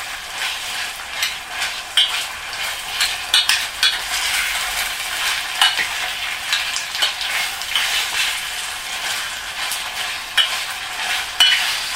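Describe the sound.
Stirring of a sizzling batter mixture frying in a pan: many irregular scraping strokes and small clicks of the utensil over a steady crackling sizzle, with no talk.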